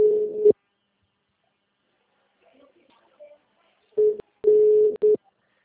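Telephone busy tone after a dropped call: a steady mid-pitched tone in short bursts, one at the start and a few more near the end, separated by a long stretch of near silence.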